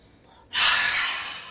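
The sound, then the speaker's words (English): A single deep, forceful inhale during a Kung Fu breathing exercise, a loud, breathy rush of air that starts abruptly and slowly tapers, heard alone. “I recommend you do that Kung Fu breath at least 6 times when you're doing it. So inhale”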